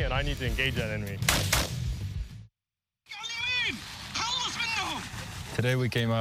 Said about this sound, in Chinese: 我们用这些移动目标来练习枪法。